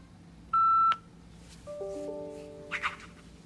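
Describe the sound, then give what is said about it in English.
A computer beeps: one sharp, sustained high electronic tone, then softer, lower overlapping tones and a couple of brief chirps over faint background hiss. “Sorry for all the other noises. That's my computer.”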